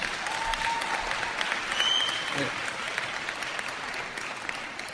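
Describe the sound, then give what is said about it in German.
Audience applause at a talk, a dense and steady wash of many hands clapping that continues at an even level through the whole stretch. “ich hätte das auch gesagt ohne Applaus, aber ich freue mich natürlich.”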